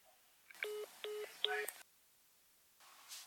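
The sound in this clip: Electronic telephone tones signal another incoming caller: three short, bright bursts of beeping in a steady rhythm, followed by a quiet stretch and a faint hiss at the end.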